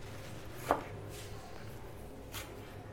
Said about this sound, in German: Ich kann nicht mal richtig die Zwiebeln schneiden, wie du siehst.